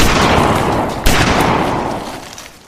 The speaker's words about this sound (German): Geht nicht! Wir müssen schießen! Das Monster bringt den Jungen um!